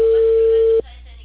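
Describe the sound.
Telephone line tone of an unanswered call: a single steady mid-pitched beep held just under a second, then cut off abruptly, leaving only a faint low hum.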